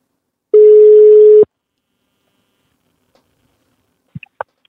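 A telephone call rings out as a ringback tone: one steady, mid-pitched buzzing tone lasting about a second. Silence and a few faint clicks follow.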